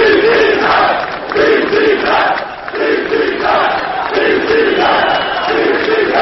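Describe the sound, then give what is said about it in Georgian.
A large crowd on Freedom Square gives an ovation to Georgian Dream coalition leader Bidzina Ivanishvili on his arrival, a loud mass of voices roaring and chanting in rhythmic, repeating waves. “რამდენიმე სიტყვის შემდეგ თავისუფლების მოედანზე კოალიცია ქართული ოცნების ლიდერი ბიძინა ივანიშვილი მივიდა, რომლის გამოჩენასაც იქ შეკრებილნი ოვაციებით შეხვდნენ.”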